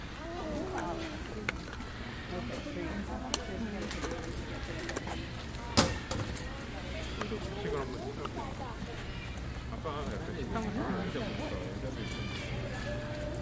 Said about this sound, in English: Sounds like the parrots are in the vine.